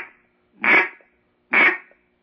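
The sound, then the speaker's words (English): A duck call blown to imitate a duck gives two short, raspy, nasal quacks, each loud and abrupt, with a clear silent gap between them. “Then you turn duck call around, just go,”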